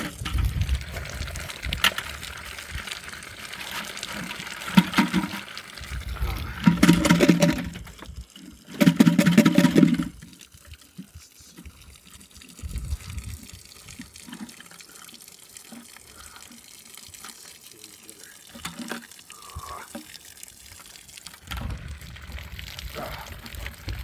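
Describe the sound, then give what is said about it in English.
Water gushes and splashes while maple sap buckets are rinsed out, coming in a few loud bursts separated by quieter stretches of trickling and dripping. “So we're just cleaning out some buckets.”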